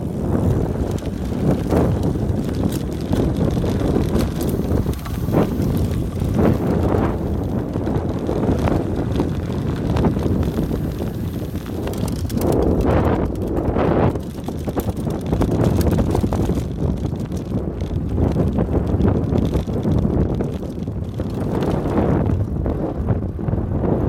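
Steady wind rush and rumble from a bicycle riding the white gravel dust roads of the Strade Bianche route, loud and continuous throughout with gusting surges.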